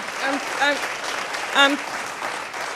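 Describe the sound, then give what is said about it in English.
Applause from an audience giving a standing ovation to a woman at an evening event; steady, full clapping, with a few voices calling out above it. “She got a standing ovation and said this to the audience.”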